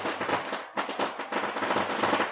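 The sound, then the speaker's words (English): Gunshot sound effect, a rapid string of sharp, crackling bursts, several quick pops bunched close together, moderately quiet, with no talking. “You got to stop with sound effects. I'm trying to have a serious conversation. No, I'm going to shoot. Every time you make a point,”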